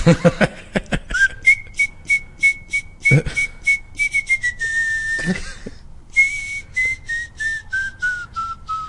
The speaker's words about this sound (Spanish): Hay una rolita, no me acuerdo, pero te la voy a chiflar.